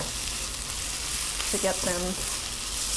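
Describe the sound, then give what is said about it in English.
Bacon frying in oil in a pan over low heat gives a soft, continuous sizzle with fine crackling. The hiss stays steady and fairly quiet throughout. “Oh, and while I'm here, I think I'll flip the bacon for the first time. Nice thing about cooking bacon on very low heat is that”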